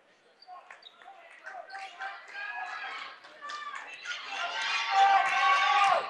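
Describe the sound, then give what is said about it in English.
A basketball dribbled during a game, its quick rhythmic bounces running under play-by-play commentary and crowd noise that swells toward the end. “So on the dribble here is going to be Damian Austin.”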